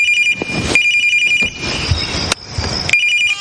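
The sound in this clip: A mobile phone rings after being found hidden on a shelf: a loud, repeating electronic ringtone with a high steady tone, broken into short phrases by brief gaps, and no voices.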